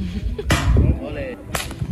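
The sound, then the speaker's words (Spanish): Two sharp, whip-like cracks of stones thrown with a sling by a shepherd and world champion slinger from El Torcal in Málaga, about a second apart, loud over low rumbling. “Bueno, así suena el tiro de piedra con ondas.”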